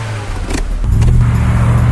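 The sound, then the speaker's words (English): Car engine revving hard during high-speed drifting, a loud, continuous motor drone whose note steps up partway through. “Ready for some high-octane drifting?”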